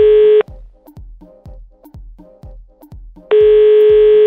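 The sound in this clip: A telephone dialing a call: a steady electronic tone, then a quick run of short beeps and clicks, then the steady tone again, loud and with no voices.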